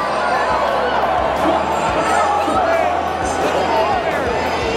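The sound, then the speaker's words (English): Live crowd cheering before a game during the anthem: a dense, steady roar of cheering and hubbub that holds at an even loudness from start to finish. “You can hear the crowd live reacting to it.”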